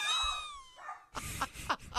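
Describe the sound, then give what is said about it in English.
A small dog at home lets out a high whine that slides downward in pitch, then a few short, sharp bark-like yelps follow. “we've got my two dogs here and my mother-in-law's dog, Quinn”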